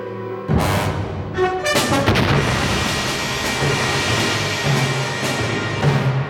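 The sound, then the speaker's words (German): A meteorite impact explosion bursts in with a sudden loud blast, then rolls on as a dense, sustained roaring rumble that stays heavy and even to the end. “Was war das? Eine Explosion? Ein Meteorit.”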